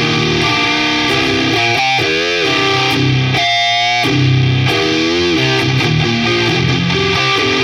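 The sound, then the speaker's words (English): Electric guitar plays through stacked fuzz pedals, a Silverback fuzz in fuzz mode without the germanium stage. The tone is thick, loud and heavily saturated, and the riff sustains continuously with buzzing, distorted harmonics. “if we just remove the in-your-face germanium, now we're just stacking the silverback, but in the fuzz mode. This is still something that is 100% achievable through the Sound of Justice FX. They sound like this.”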